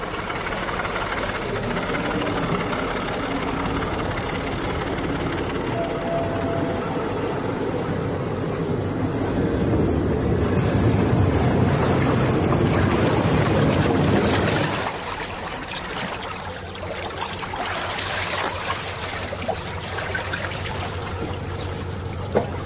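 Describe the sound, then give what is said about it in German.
Engine of the Priwall ferry at Travemünde running as it docks, a steady low rumbling drone with a watery rushing texture that grows louder in the middle, then drops to a quieter idle for the rest. “Zum Schluss war es noch das Anlegegeräusch der Priwalfähre.”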